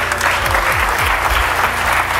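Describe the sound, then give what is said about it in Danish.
Applause after SAS announced its biggest aircraft order and investment ever: a steady, fairly loud crowd clapping that keeps an even, dense texture from start to finish. “Ja, så var der store klapsalver bagefter.”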